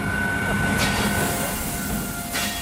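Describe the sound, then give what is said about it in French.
A refrigerated freight train of twelve wagons, carrying fruit and vegetables from Perpignan to the Rungis wholesale market near Paris, arrives at a lit platform at night with a loud, steady rumble and a thin, sustained high wheel squeal. “Il est 2h45 ce matin et pile à l'heure, le train des primeurs atteint le quai tout éclairé du célèbre marché de Gros Parisien. 12 wagons réfrigérés charrient des fruits et légumes depuis Perpignan.”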